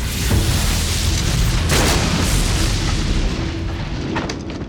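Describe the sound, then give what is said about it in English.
A thunderbolt strikes the side of a bridge and tears a chunk from its railing, heard as a loud, continuous roaring boom with a sharp crackling burst near the middle that fades slightly toward the end. “The bolt struck the side of the bridge, carving a chunk out of what was left of the railing.”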